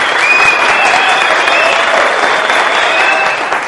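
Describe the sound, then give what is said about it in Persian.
A festival audience gives a band loud, dense, continuous applause, with many hands clapping steadily and without a break for the whole clip. “اول از همه جا داره که از بند بسیار خوب کلاویه که ترک اول رو اجرا کردن به رهبری آقای امین لطفی یه تشکر و کف مبارک.”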